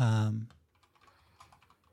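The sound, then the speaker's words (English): Typing on a computer keyboard gives faint, rapid, uneven clicks and taps after a brief voice at the start. “Let me type this down.”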